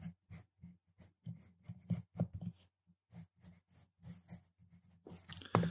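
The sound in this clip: Faint pencil scratching on note paper comes in short, irregular strokes and pauses, the quick dry rasps grouped in bursts with a slightly louder flurry near the end.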